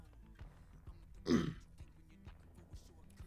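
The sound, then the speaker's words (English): A man clears his throat once, a short, gravelly burst that stands out briefly against a quiet background. “My bad. Had to clear the throat”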